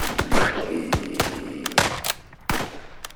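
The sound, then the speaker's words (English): Gunfire outside a saloon as people shoot at a huge burning creature like a mountain lion: several sharp, loud shots at irregular intervals, each a hard crack with a short ringing decay, with no talk over them. “Don't just stand there. Start firing.”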